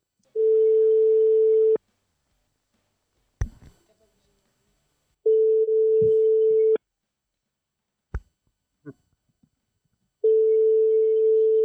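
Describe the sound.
Telephone line tones sound while a call is placed to a bookshop. Three long, steady single-pitch beeps of about a second and a half each are separated by quiet gaps with a few faint clicks.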